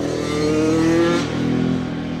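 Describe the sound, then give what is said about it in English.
All-terrain vehicle engine revving among New Hampshire towns, a loud, steady motor drone that surges briefly in the middle before settling back, with no talk. “Some towns in New Hampshire want to cultivate ATV tourism, but not all the neighbors are happy. The machines keep getting bigger and bigger, and the bigger they are, the more noise they make.”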